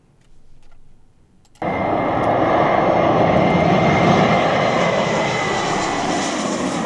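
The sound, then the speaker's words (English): Jet aircraft flying overhead on a flight path from Brisbane's new parallel runway: after a faint, brief rumble, a loud, steady engine roar cuts in abruptly and holds to the end. “It's the sound less southeast residents will hear over their homes when Brisbane's new runway opens next year.”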